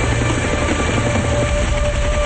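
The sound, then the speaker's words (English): Helicopter approaching over a tropical island where men are clearing trees around a small structure. Its rotor drone is loud and steady throughout, a continuous dense rumble with a faint sustained whine. “The men look up as the helicopter approaches.”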